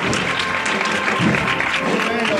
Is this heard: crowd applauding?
yes